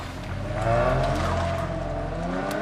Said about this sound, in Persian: امیر سر کوچه میاد و یه ماشین رو میبینه که با فاصله ازش ایستاده. ماشین حرکت میکنه و میره.